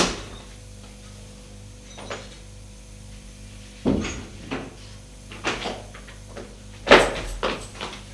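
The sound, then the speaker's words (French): A door is kicked open, heard as several sharp thuds and bangs against a quiet background, with the loudest strike coming near the end. “D'un coup de pied, il arrive à ouvrir la porte.”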